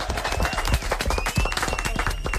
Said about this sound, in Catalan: Molt bé, fort aplaudiment.